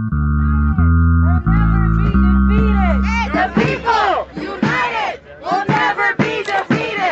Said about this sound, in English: Our Midwest correspondent joined Amazon employees at a rally in Minnesota to hear their concerns.